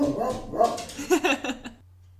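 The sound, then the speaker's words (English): Excited barking from a dog reacting to its reflection in a window: a short burst of quick, high-pitched barks and yips, then quiet hum. “Sorry about the barking.”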